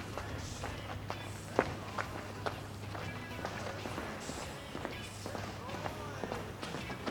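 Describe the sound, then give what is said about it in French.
Footsteps of several people walking make a steady run of soft, overlapping steps and taps over a low constant hum, with one sharper step standing out early on. “Deux, bruit de pas, plusieurs.”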